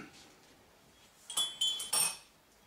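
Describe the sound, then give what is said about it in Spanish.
A teaspoon clinks against a cup while stirring decaf coffee. After a quiet start come three faint, bright taps in quick succession. “estás removiendo el café como si fueses a sacar petróleo”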